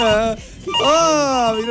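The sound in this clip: A mobile phone ringtone sounds, a loud, bright, melodic tone with rich steady harmonics that carries on without a break for under two seconds.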